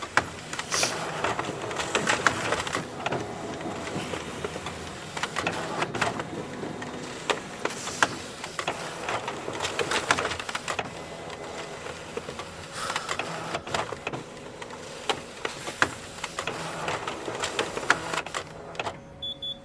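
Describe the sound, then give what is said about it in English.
A slow Xerox photocopier in a gym runs off copies with a continuous mechanical whirring and rattling, full of quick clicks and clatters that pulse unevenly throughout. “so I'm gonna have to make some copies. Whatever. Do it. Okay. It's a slow copier because it's a Xerox machine in a gym.”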